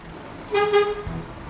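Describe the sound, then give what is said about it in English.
A fire truck's horn toots as it drives into Droitwich Fire Station, a short, bright, harmonic honk lasting about half a second, followed by a soft low thump. “Just after we arrived, the fire truck drove in”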